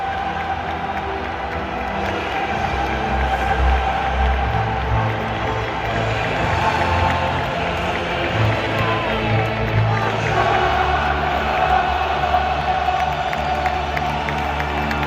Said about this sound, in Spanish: Así ha coreado la afición verde y blanca el himno de la Champions.